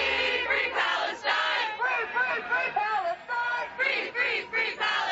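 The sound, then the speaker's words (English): A protest crowd chants in rhythmic unison at a university encampment in Washington, D.C., one morning. Many voices repeat short phrases on a steady beat, loud and continuous. “This is what it sounds like this morning at George Washington University encampment in D.C.”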